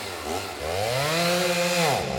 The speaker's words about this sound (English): I must have deleted drum roll. Best I can do is chainsaw? Okay, fine. This week, the expert and liar are going to be a chainsaw, please.